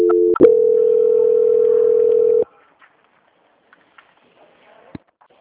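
A steady telephone tone plays during a call transfer, holding loud and unbroken for about two and a half seconds after a brief clipped start, then cuts to near silence with a few faint clicks.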